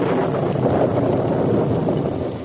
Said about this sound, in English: As they rode the trail toward camp, a sudden storm came up.